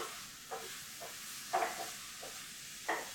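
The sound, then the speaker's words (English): Mushrooms fry in sunflower oil with a quiet, even sizzle and hiss, broken by a few soft taps and clicks. “And now I have opened sunflower oil, which is amazing, and I will use it today. Alright, these mushrooms are cooking up.”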